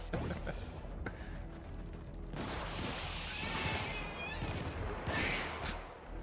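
Gunfire from a light machine gun in the video game Helldivers: dense bursts of rapid shots with crashing impacts, loud and continuous throughout.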